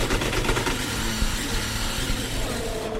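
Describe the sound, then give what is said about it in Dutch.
A race car's gearbox slams on downshifts in second gear. A loud, dense engine roar runs throughout, with faint knocks in it. “Bij terugschakelen, dit is gewoon een bak die slaat.”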